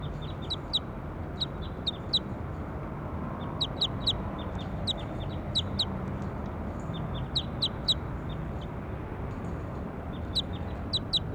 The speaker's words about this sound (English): Now I'm going to go back over to bird five. Start recording bird four.